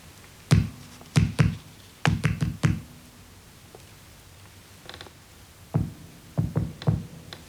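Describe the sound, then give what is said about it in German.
Sharp knocks on a wall tapped out as signals, arriving in short irregular bursts of two to four raps separated by pauses, crisp and fairly loud with nothing else around them. “Nächte hindurch klang das Klopfen an mein Ohr.”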